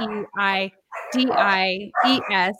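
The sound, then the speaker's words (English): Puppies barking and yipping in several short, high-pitched, tonal yaps that come in quick clusters, with a talking voice overlapping them. “And I hear your puppies.”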